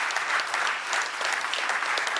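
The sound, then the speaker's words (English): A large audience claps together, forming a dense, steady wash of applause that stays loud and even throughout. “Come on, if we're gonna clap, let's just all clap together out there.”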